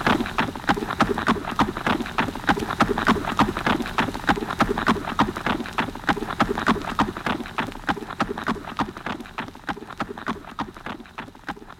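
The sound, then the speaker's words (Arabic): Horse hooves clip-clop in a steady, quick rhythm with many sharp, evenly spaced strikes, loud and continuous throughout with no voices. “أدهم تعال يا حصان، عايزين نحصل هوام. يلا حصان.”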